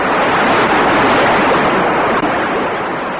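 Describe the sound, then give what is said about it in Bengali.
A rainstorm with strong wind makes a loud, dense, unbroken roar of rain and gusts that holds steady throughout, with no voices. “বৃষ্টি তুফান শুরু হয়েছে”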